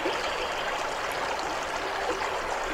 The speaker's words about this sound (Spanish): Estás escuchando el sonido de agua fluyendo.